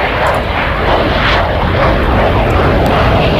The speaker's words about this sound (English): And you're not missing the Red Arrows. No, I've seen them a few times. They're going to sound something like this.